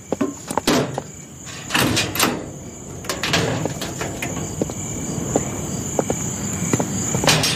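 A door being opened, heard as a series of knocks, clunks and rattles against a constant high-pitched insect-like chirring.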